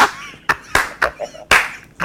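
Classroom clapping in a quick rhythmic pattern, sharp loud claps in bursts with short gaps, like a call-and-response clap sequence.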